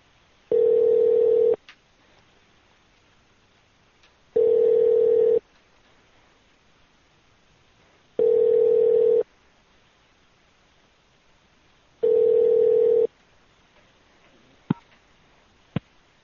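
An outgoing telephone call rings unanswered: four steady, mid-pitched tone bursts, each about a second long, are separated by even silent gaps. Two brief sharp clicks follow near the end.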